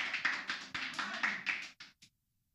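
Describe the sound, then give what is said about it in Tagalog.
A church audience claps in praise of God, a faint burst of many hands with an uneven, quick patter that thins out and stops abruptly after about two seconds, leaving silence. “Palakpakan po natin ang Diyos.”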